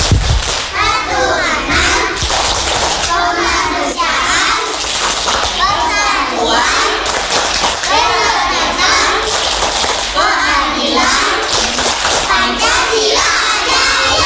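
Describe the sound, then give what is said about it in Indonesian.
Children clap and chant the Tepuk Pancasila routine together, led by a teacher. Loud rhythmic bursts of clapping alternate with young voices chanting in unison throughout. “Lagi sekali, tepuk Pancasila.”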